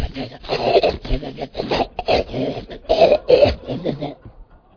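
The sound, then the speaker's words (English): A man's voice imitates a glutton breathing through his mouth while shoveling T-bone steak into it, a string of wet, rasping, snorting bursts in an uneven rhythm that stops abruptly. “And he sat there trying to breathe through his mouth and eat steak, shoveling it into his mouth, and it was sounded like”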